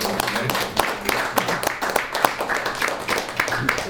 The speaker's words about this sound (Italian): Un applauso.